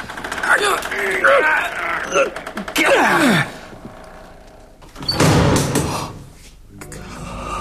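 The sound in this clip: A casket lid being lifted open gives drawn-out creaking groans and squeaks, then a louder, rougher scraping rumble before quieter shuffling.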